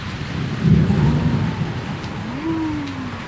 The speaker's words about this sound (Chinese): 侧耳听着窗外传来的风声和雨声。